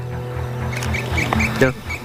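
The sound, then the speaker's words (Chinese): A crested ibis gives a few harsh, squawking calls, the loudest near the end, while a person talks over them. “朱鹮开始叫了啊，起床了，起床了，再叫。”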